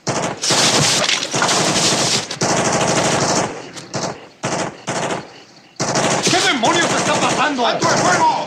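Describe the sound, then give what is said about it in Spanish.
Dense bursts of automatic gunfire from a 1989 war film battle scene during a mortar search near a village: loud, sharp, rapid-fire volleys that break off briefly a few times before resuming. “¡Le disparas! ¡Alto el fuego!”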